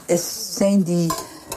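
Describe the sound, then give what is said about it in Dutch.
Stirring of flour and butter in a pot, with scraping and faint sizzle-like texture in a few uneven strokes and some short tonal squeaks, fairly loud and without talk. “Dus nu is gewoon in de pot de bloem en de boter.”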